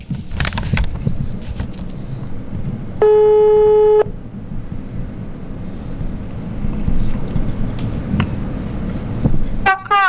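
A telephone ringing tone sounds as a phone-in call connects: a single steady, buzzing tone lasting about a second, set against low background noise.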